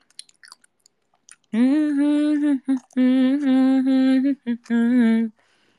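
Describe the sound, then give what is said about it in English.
A voice imitates chewing food while eating with a few loud, drawn-out, steady-pitched humming 'mmm' sounds, separated by short breaks and with no other sound. “let me finish eating my food. Nom nom.”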